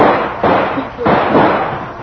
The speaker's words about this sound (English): I can hold them off for a minute with a rifle.